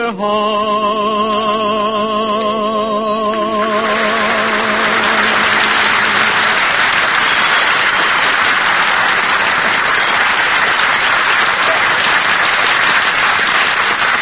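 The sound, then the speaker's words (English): Audience applause and clapping break out after a sung performance. A held vocal note fades in the first few seconds, then dense, steady clapping swells and continues loudly to the end. “did you hear that clapping? They loved it, kid.”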